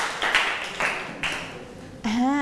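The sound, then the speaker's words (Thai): Students clap for a classmate who answered correctly, a short burst of hissy, scattered applause that rises and falls in a few waves before a voice cuts in at the end. “นักเรียนปรบมือให้เพื่อนค่ะ”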